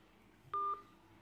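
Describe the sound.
A single short keypad beep as a phone number is redialled after a busy line, a brief steady tone standing out over faint background hiss.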